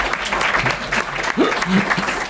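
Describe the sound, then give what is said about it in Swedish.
A small group gives a round of applause: brisk, uneven clapping continues throughout, with people talking and calling out over it. “Men vi kan applådera”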